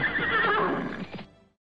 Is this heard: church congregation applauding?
no